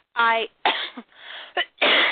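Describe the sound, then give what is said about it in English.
A person coughing: a few harsh, rough bursts in quick succession, loud and separated by short gaps. “sorry for the coughing, Jesus”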